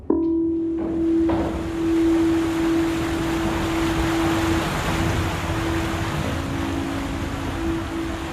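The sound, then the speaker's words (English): Ferry riding the sea swell out of Zamboanga City in the Philippines, heard as a steady engine drone with a sustained low tone under a broad, continuous rush of water and wind. “And we're on the ferry, riding the swell from Zamboanga City on the southwestern tip of”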